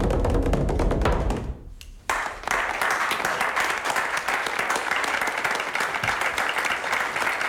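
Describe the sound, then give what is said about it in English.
Applause from wedding guests as a couple walks out: loud, dense clapping with crisp hand slaps, a brief lull partway through, then steady clapping to the end. “They go out through the applauding crowd of wedding guests.”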